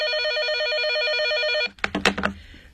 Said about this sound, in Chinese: 肖黛丽家的电话响了起来